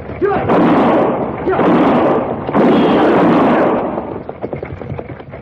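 Gunshots fired at a fleeing man during an escape: three loud, rough blasts, each roaring on for over a second, then a lower, scattered rattle of fainter noise.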